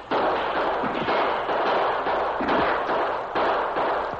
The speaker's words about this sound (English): they took to the cover of the boulders on either side of the trail and opened fire. The defenders of the pass fired back.